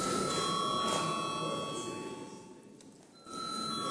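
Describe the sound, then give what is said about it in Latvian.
A bell rings in a parliament chamber to call members to a vote: a steady, fairly faint ringing tone that dips briefly and then resumes. “lūdzu zvanu.”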